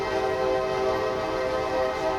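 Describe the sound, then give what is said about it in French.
Sustained tonal horn-like sound over low rumbling at a Paris railway station with trains, a steady, fairly soft harmonic drone that holds throughout without clear breaks. “Tout commence par une gare et c'est bien normal pour une arrivée.”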